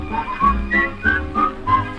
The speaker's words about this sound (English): A little Swiss whistling song, and they whistle it all day long.